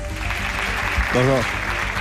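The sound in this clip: Audience applause at a public event in Teruel, given for a guest connected with the local airport. The clapping is a steady, moderate wash throughout, and a voice briefly rises above it near the middle.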